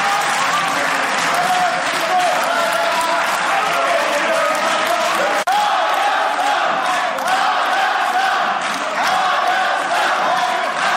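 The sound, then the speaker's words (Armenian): Standing applause fills a hall as ruling-party members clap while opposition members walk out chanting; dense, loud, sustained clapping runs the whole stretch with crowd voices and shouts mixed in, a brief dip midway. “իշխանականները ճանապարհեցին հոտնկայս և ծափահարություններով”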